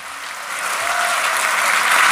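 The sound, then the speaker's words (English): A theatre audience at the Old Vic in Bristol applauds to welcome the host of an afternoon show. The clapping is loud and dense and swells steadily as it goes on. “Ladies and gentlemen, please welcome your host for this afternoon, Richard Herring.”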